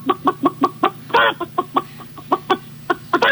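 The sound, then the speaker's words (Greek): Chicken clucking in a coop: a rapid series of many short, sharp clucks with a couple of longer, harsher squawks mixed in. The calls are moderately loud and come in an uneven rhythm. “Βρε καημένε, ένα διαφορετικό κακάρισμα δεν μπορούσε να κάνει ότι έχει πολύ κόσμο.”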